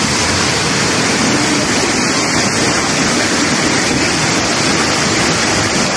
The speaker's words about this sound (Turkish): İstanbul yaz yağmuruna teslim oldu. Yollar göle döndü, araçlar mahsur kaldı.